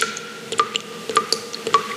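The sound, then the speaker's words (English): Water drips from a leaking tap in a series of small, bright plinks at an uneven rhythm, set against a faint steady tone. “The tap's dripping”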